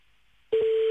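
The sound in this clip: A telephone line tone after a cut-off call: near-silence, then a steady single-pitched electronic tone switches on abruptly halfway through and holds unbroken to the end.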